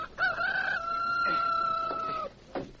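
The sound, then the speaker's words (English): Rooster crowing: one long, loud crow that holds a drawn-out note, its pitch easing slightly downward before it breaks off, heard alone. “It's my rooster! I hear him crowing!”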